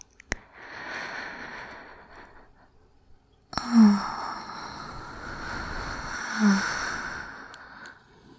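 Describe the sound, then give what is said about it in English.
Slow, deep breaths drawn and released during a guided relaxation breathing exercise, airy and soft, with a few long breathy swells and low rushing noise like wind, and no talk over them. “I'm gonna breathe, and I just want you to breathe with me.”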